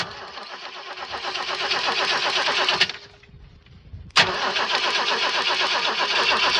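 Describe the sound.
A car engine starting from cold gives a loud, steady mechanical drone. It drops away briefly, then catches again with a sharp burst and runs on at full strength.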